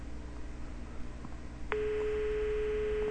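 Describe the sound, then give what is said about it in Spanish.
A telephone line tone on a call to an emergency number with the line busy: a steady single beep begins partway through and holds unbroken over a faint background hiss. “¿Qué pasa? ¿Estarán ocupados?”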